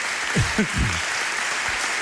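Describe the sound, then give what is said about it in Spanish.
Audience applause at a public event with the mayor of Pontevedra, a steady wash of many clapping hands that holds at an even level throughout. “Podéis aplaudir también, ¿eh? Aquí hay para todos.”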